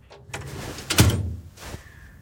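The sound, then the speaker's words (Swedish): A drying cabinet door opens in a school classroom: a light click, then a louder clunk and rattle near the middle, and a softer knock afterward, all short and fairly quiet. “Fröken låser ytterdörren och öppnar torkskåpet.”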